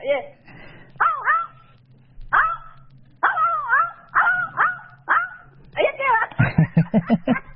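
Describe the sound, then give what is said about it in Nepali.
A person imitates a dog barking, giving a string of yelping, barking calls with short gaps between them, then a rapid flurry of short, choppy barks at the end. “फेरि एकचोटि भुक्दिनु पर्यो”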